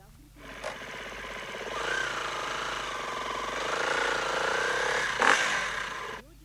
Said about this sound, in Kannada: ಒಂದೇ ನಿಮಿಷ, ಬೈಕ್ ತೊಗೊಂಡ್ಬಿಡ್ತೀನಿ.